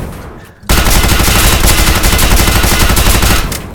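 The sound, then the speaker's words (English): Rapid automatic weapons fire from many guns erupts suddenly into a loud, dense, unbroken clatter that roars for about three seconds before easing off. “You hear that? Everybody's around here. Everyone's around here. Firing off all kinds of automatic weapons.”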